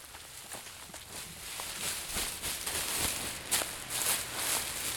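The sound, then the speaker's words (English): People tread on dry bean pods folded inside a sheet, making many rhythmic, crunchy, rustling footsteps at a steady walking pace. “The point is to loosen the dry beans from their pods. They stop periodically to check on the progress and refold the sheet. And then they walk on them some more.”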